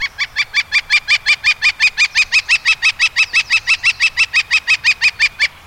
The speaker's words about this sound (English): That's the sound of a northern flicker, a brownish woodpecker larger than a robin, smaller than a crow